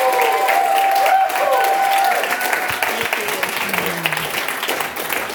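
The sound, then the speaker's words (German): Applause from a church audience welcoming a guest preacher: loud, dense clapping that fades gradually toward the end, with voices mixed in. “Lasst uns noch einmal Reverend Marilyn Neubauer ganz herzlich und mit einem Applaus begrüßen heute Morgen.”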